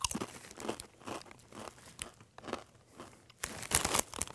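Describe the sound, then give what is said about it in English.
Crunching of Blazin' Buffalo Ranch Doritos tortilla chips being chewed, with many crisp, brittle crunches in an uneven rhythm that grow louder toward the end, and no talk over them. “All right, let's try this. Blazin' Buffalo Ranch Doritos.”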